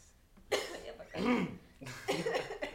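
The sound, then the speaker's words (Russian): Someone coughs after choking, in three harsh, throaty bursts separated by short pauses, fairly quiet and with no talk. “поперхнулся”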